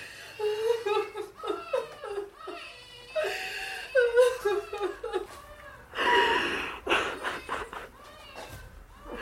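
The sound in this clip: Sobbing in a dramatic scene: repeated halting, breathy sobs and whimpering cries in uneven bursts, with a louder, strained outburst partway through.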